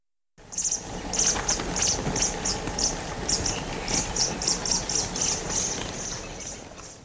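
Oxpeckers give alarm calls in the bush near buffalo, a rapid run of many short, high chirps over a steady, soft background hiss.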